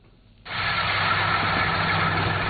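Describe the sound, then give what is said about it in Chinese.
Loud, steady engine roar from a large combine harvester working at full power in a rapeseed field in She County, Anhui. It cuts in abruptly after a moment of near quiet and holds as a dense, unbroken mechanical drone. “在安徽黄山市歙县镇村镇梅村的油菜田里，大型收割机正开足马力穿梭作业”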